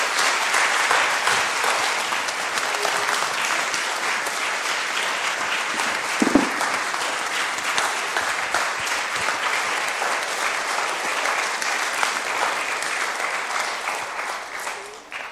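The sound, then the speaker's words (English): Sustained applause from a gathered crowd, dense and even clapping that runs for about fifteen seconds with one brief louder burst partway through, then thins slightly at the close. “And at the end of it, we will give him a round of applause.”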